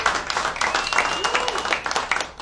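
Audience clapping at a stand-up comedy show: a fairly loud burst of dense, crackling claps with uneven peaks that continues throughout.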